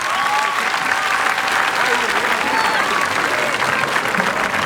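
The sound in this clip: Loud, dense applause from the audience after an acoustic band's live performance at the Meštrović Gallery in Split, continuing evenly without a break.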